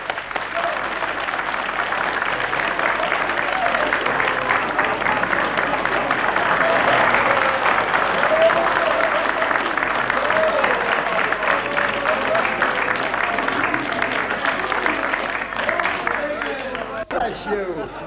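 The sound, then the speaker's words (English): A church audience clapping along in a steady rhythmic beat, dense and loud, mixed with crowd voices and shouting throughout. “Come on, have him a clap.”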